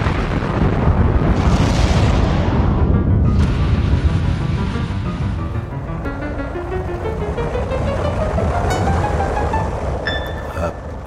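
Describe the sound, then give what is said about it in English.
A rocket ship takes off with a loud, sustained roar of dense rumbling noise. A whistling tone climbs steadily in pitch through the second half. “he accidentally leaned against the red button, and the rocket ship took off”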